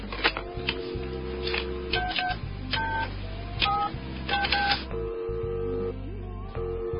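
Telephone keypad tones as a number is dialed: a quick series of short paired beeps, spaced irregularly, over a low steady background.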